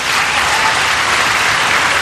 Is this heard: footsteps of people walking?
no